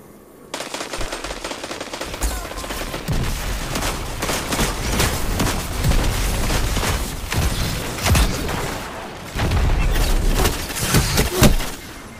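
Shotgun and other weapon fire in a Destiny 2 Crucible multiplayer match, a dense, relentless barrage of loud blasts and bangs with no voices.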